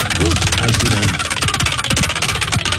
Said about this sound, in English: Wheel is spinning.